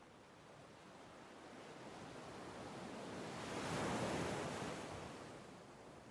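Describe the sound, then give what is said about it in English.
Ocean waves roll onto a sandy shore as a soft, steady wash that swells to a fuller surge midway and then eases back, with no voices. “as the tide rolls in, then as each wave rolls back, seeing the fresh seawater soak deep into every fine grain of sand.”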